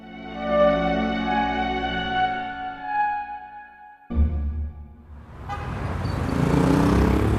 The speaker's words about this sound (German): Der schwarze Talbot fährt über die Champs-Élysées zum Étoile hinauf.